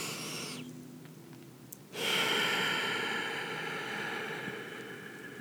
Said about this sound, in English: A few more energizing breaths, inhaling and exhaling.